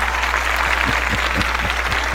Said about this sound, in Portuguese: Vamos aplaudir. Vamos aplaudir.